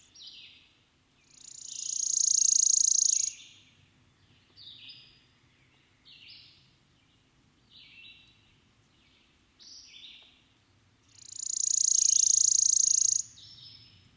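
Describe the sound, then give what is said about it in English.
Worm-eating warbler song: two long, dry, high-pitched buzzy trills, each lasting about two seconds, separated by a stretch of faint, short chips and notes. “the worm-eating warbler,”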